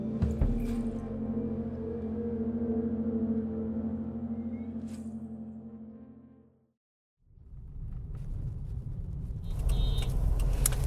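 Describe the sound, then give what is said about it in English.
Steady road rumble from a car driving down a busy highway in Lagos on a sunny afternoon. The rumble cuts out briefly, then returns louder with added hiss. “I'm Shola Lawal, and I'm driving down a busy Lagos highway with my sister.”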